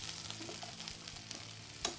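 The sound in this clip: A pork chop is stirred as it fries in a pan with apples, onions and mushrooms. The quiet, steady sizzle is broken by a few soft scraping clicks from the stirring, and no one speaks.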